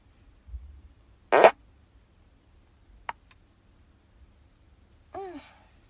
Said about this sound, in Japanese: おならが出そうなので出していこうと思います。